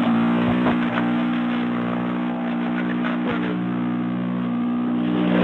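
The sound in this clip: A rally car engine, the first car arriving at a city rally stage of the 22nd Rallye da Coruña, gives a loud, steady, deep droning roar with little change in pitch throughout.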